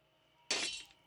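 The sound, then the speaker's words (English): Glass breaks with a sudden loud, bright shatter and crackle of tinkling fragments that lasts under half a second before cutting off, after a quiet moment. “Just gotta break this glass a little bit.”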